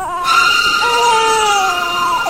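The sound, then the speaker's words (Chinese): An infant crying: one long, continuous wail with a strained, harmonic tone that sags slightly in pitch toward the end, loud and alone without any talk. “阿炳一边随口应着，一边注意地听着婴儿的啼哭声，他的耳朵在微微地颤动。”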